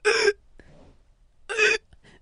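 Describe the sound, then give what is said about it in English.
A voice imitates gasping and struggling to breathe after lungs seized, with two loud, strained gasps separated by a quiet pause and faint breathy sounds in between. “I could not breathe. Could not. And I'm like this. I'm trying to breathe, right? I'm like...”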